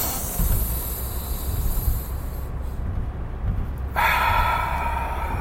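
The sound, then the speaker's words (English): Deep breathing, drawn in through the nose and pushed out through the mouth, makes a steady, breathy rush of air that shifts in tone near the end. “Two breaths. Two deep breaths. In through the nose, out through the mouth.”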